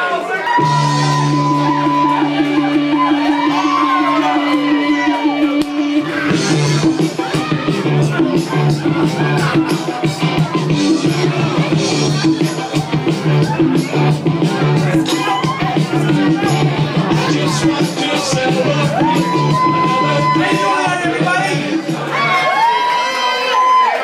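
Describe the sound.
A crowd cheers, shouts and whoops to welcome a performer to the stage at an LP release show, loud and sustained throughout.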